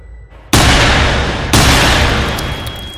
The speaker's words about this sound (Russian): 2 новых выстрела раскалывают сознание